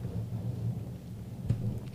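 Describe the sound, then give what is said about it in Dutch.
Thunder rumbles as a summer evening storm begins, a low, steady, fairly faint roll with a brief sharper burst partway through. “Is dat donder? Het begint te donderen.”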